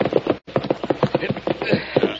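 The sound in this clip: Horses' hooves on a trail beside a cabin beat out a quick, regular clip-clop, with many hoofbeats in a steady rhythm broken by one brief pause.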